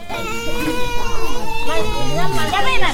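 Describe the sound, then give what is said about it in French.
Children cry and play in the noisy Wurbono neighbourhood of Boromo. High, wavering wails overlap with lively child voices in a loud, continuous jumble. “L'endroit est bruyant. Des enfants pleurent, d'autres jouent, ça et là, sous les regards attentifs de leurs parents.”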